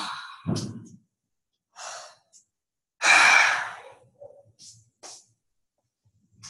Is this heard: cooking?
no